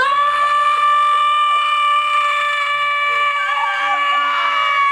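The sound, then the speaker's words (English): A voice imitating an angry scream: one long, loud, strained yell held at a high, steady pitch for about five seconds without a break. “then suddenly he gets in her face and literally screams like this”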